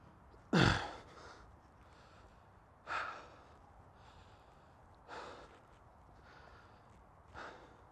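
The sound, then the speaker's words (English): Heavy breathing from someone out of breath while walking: four distinct, breathy huffs spaced about two seconds apart, the first loudest and the rest gradually softer. “I'm not usually just out of breath 5 minutes into a walk, you know?”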